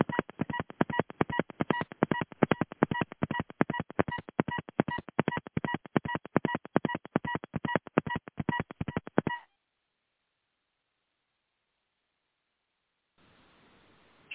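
Telephone keypad DTMF tones dial back into a call: a long, rapid run of many short, evenly spaced beeps at steady volume, then abrupt silence and a faint hiss at the end.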